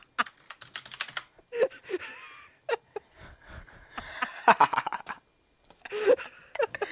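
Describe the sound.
Typing on a computer keyboard, quick irregular bursts of key clicks with pauses between them, while people talk over the tapping.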